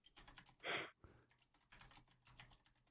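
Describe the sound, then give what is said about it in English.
Typing on a computer keyboard: a run of quick, crisp key clicks with one louder, longer burst of clatter near the start, then lighter, uneven tapping. No voices. “I'm just going to type in Silence of the Lambs.”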